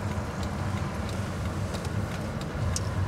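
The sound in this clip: A car drives and turns left, heard as a steady low engine and road rumble with a constant hum from inside, with no talk over it.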